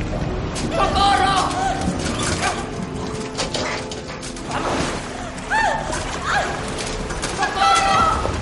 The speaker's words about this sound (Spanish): Llegan a una escalera y ascienden hasta otra verja cerrada. Zarandean la verja.